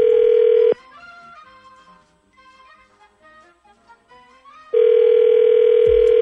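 Telephone dial tone as a call is placed: a loud, steady tone cuts off abruptly, a softer stretch of varied tones follows, and then the same steady tone returns and holds to the end.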